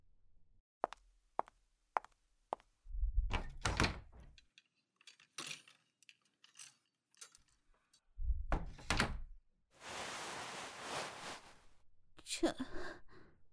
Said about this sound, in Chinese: 让我打开那边的柜门是吗？嗯，好的。